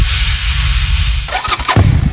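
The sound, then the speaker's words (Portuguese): Motorcycle engines roar for a motorcycle club rally at a stadium in Braga, a loud continuous rumble that shifts into rougher, uneven bursts of revving partway through. “O rugido dos motores está de volta a Braga.”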